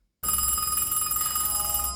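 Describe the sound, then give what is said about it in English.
A telephone in New York rings continuously after a brief silence, a bright, steady electronic bell tone with a fast trilling flutter, sounding alone and loud through to the end. “First New York phone call. Oh, it must be No Magazine. No one else has your number.”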